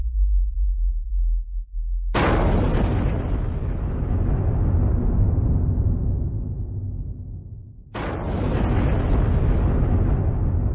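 An underground nuclear bomb test explosion: a low, steady rumble breaks into a sudden, loud, roaring blast that slowly fades, then a second abrupt, equally powerful roar erupts and carries on.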